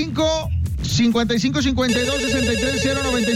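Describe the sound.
A telephone rings for an incoming call. The steady, trilling ring starts partway through and continues to the end, over voices and music.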